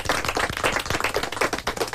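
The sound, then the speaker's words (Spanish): A radio show's studio audience applauds with many quick, brisk claps in a lively, irregular patter at moderate loudness for two seconds. “I si tu estàs disposat a fer aquesta passa, pues, que tothom és benvingut. Un altre aplaudiment,”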